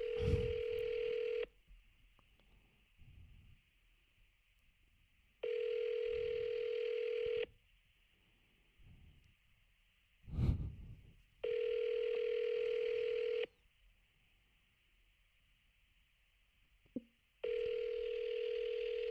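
Ringback tone sounds on an outgoing phone call: four long, steady buzzing rings of even pitch, separated by pauses of several seconds, with faint murmurs in the gaps.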